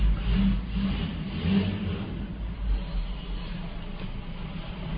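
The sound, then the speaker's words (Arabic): Car engines rev at a car demonstration, a steady mid-to-low roar that swells and eases several times and keeps running without a pause. “ايش فيه هنا في حرب سيارات، مظاهرة هذه مظاهرة سيارات”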